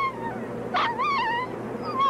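A dog being attacked whimpers and yips in a few high, wavering cries, with a short burst of noise just before them, over a faint steady background.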